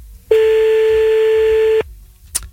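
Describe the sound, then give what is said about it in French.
A single steady telephone tone sounds as a call is placed during a late-night radio show. It holds for about a second and a half, then breaks off, and a short faint click follows. “Eh bah c'est parti, on y va, on l'appelle maintenant sur Fun Radio.”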